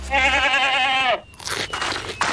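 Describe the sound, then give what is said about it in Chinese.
An animal crunches on cereal: a loud, wavering bleat comes first, then a stretch of crisp, dry crunching bites. “再说了，加比最喜欢吃的就是他的谷物了。快吃吧，加比，好吃好吃，大口的吃。”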